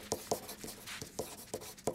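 Faint, scratchy strokes of a left-handed fountain pen writing on paper, its nib ground for left-handed pressure and the ink flowing smoothly; several short strokes fall in an uneven rhythm.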